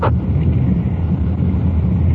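A police detective car drives on night patrol, giving a low, steady rumble with a rushing, wind-like noise at constant loudness and no talk.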